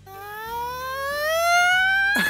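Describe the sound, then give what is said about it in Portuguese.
A voice imitates a child's siren-like wailing cry: one sustained tone that climbs smoothly and steadily in pitch for about two seconds, growing slightly louder. “Sempre tinha alguém chorando, choro sirene, né? Que é aquele choro que começa...”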